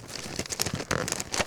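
A wrapped present, a store gift box, being torn open: quick, irregular bursts of ripping and crinkling paper, loud and close.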